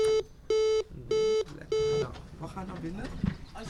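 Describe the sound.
Four evenly spaced electronic beeps from a lift in a ten-storey apartment block that is out of order, each a steady mid-pitched tone, followed by people talking.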